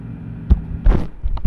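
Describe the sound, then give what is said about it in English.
Bearing noise from a computer's optical drive gives a low mechanical hum broken by a few irregular throbbing pulses, fairly loud and steady. “I'm gonna put you on top of it so you can get that bearing noise near the front on the optical drive.”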